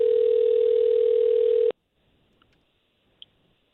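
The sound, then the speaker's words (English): A telephone dial tone hums steadily and loudly for under two seconds, then cuts off abruptly into near silence broken by a couple of faint ticks as the number is dialed. “dial the number right now that you gave us”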